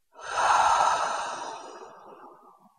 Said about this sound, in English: Do that one more time. Breathe in and out with sound.